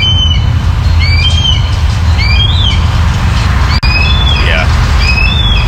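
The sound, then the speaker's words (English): A red-tailed hawk gives many thin, slurred, high screeches over a loud, constant rushing noise background, with the calls repeating through the whole stretch. “Yeah, that's a red tail. Funny, I'm realizing that's a red-tailed hawk call that blue jays imitate a lot.”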